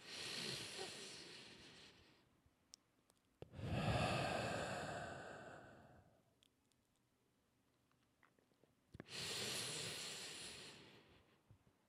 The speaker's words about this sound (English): Big deep breath. One more. You're going to get my big, congested, fourth day of antibiotics deep breath attempt, okay?